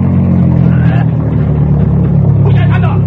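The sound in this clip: A car engine drones loudly and steadily as the driver speeds up to bust through a roadblock, with a continuous low rumble throughout.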